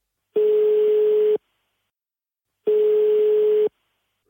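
A telephone ringing tone plays while a call is placed, with two steady one-second tones separated by a long silent pause and a third tone just starting at the end.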